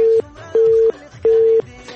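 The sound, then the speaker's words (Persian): A telephone busy tone sounds after a call is disconnected: three steady, loud, mid-pitched beeps in an even on-off rhythm with short pauses between them. “تماس قطع شو”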